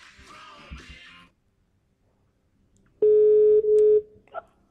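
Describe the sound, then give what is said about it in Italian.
A telephone sounds a steady electronic tone while a call is placed. The tone is loud and holds for about a second with one short break, after some brief talk and a pause. “Quindi adesso stiamo chiamando Francesca”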